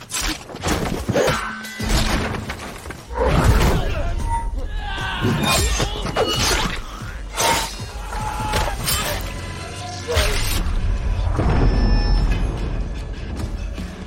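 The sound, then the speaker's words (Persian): Sword combat in a video game, with a warrior cutting down opponents one by one: loud, dense crashes, metallic clashes, whooshes and thuds run almost continuously over a busy background. “گرالت تک تک با شمشیر از پا در میاره.”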